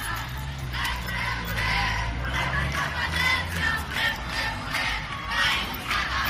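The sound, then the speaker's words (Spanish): A crowd chants in loud rhythmic shouts inside an occupied school at night during a pro-independence occupation in Manresa. Many voices rise and fall together over a continuous dense roar. “Este es el sonido de uno de los colegios ocupados en Manresa esta noche.”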